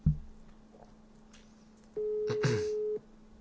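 A telephone call being dialed: a soft click opens, then a quiet stretch, then a steady, fairly low-pitched ringback tone lasting about a second before cutting off.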